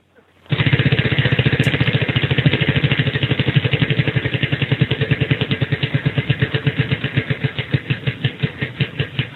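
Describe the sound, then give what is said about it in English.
A prize wheel spins with a loud, rapid ratchet of clicks from its pointer. The clicks hold a fast, steady rhythm for several seconds, then gradually space out as the wheel slows near the end. “So let's spin the wheel and see what we have.”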